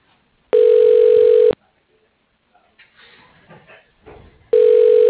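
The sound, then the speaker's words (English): Telephone tones play while a call to a medical office is transferred and placed on hold: two loud, steady buzzing tones about a second long each, with a stretch of faint, muffled sound in the gap between them. “Please hold while I transfer you to...”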